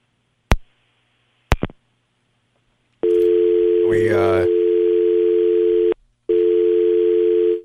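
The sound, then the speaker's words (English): Phone line dial tone after a dropped call: two sharp clicks, then a loud steady tone that breaks off briefly and resumes, with a short stretch of talk over it. “Just lost Sean there. Lost him.”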